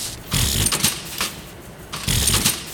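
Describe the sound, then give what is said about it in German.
Mechanical clatter and whirring from a ravioli factory machine that mixes salt, eggs and flour and presses the dough into ravioli-shaped moulds, with two louder bursts of rattling separated by a quieter stretch. “und Mehl in dieser Maschine miteinander gemischt. Das Ergebnis wird dann in diese ravioliförmigen Formen gepresst.”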